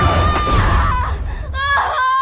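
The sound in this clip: Someone crying and whimpering: high, wavering wails and quivering whimpers that rise and break, loud and close, with no clear words.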